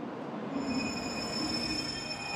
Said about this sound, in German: Nozomi. Die schnellste Zugkategorie mit nur wenigen Halten bis Tokio.